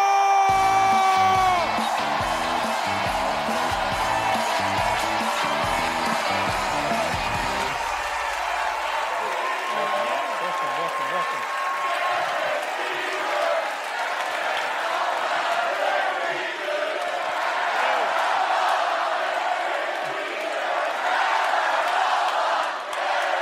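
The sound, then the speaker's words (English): A studio audience cheering and whooping as Derek Jeter, five-time World Series champion and former Yankees captain, is welcomed onto a Comedy Central show: a loud, sustained crowd roar that holds throughout. “Like, people start chanting my name”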